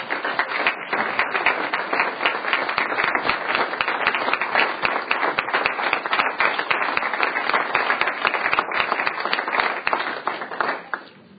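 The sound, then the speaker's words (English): Audience applause at a conference dinner: dense, sustained clapping that holds steady and loud for about eleven seconds, then thins out at the very end. “Welcome. Stand up, please. Give them a hand.”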